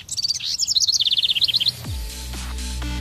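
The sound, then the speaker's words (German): Birds chirp in a rapid, regular series of many short, high tweets. The chirping breaks off partway through and gives way to a low, steady hum. “Und wenn wir zwitschern hören, ja, die einen denken daran,”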